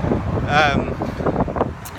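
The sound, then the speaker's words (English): Wind blows into the microphone, a loud, low, rumbling roar that gusts and swells beneath continuous talking. “oh man, that's real windy”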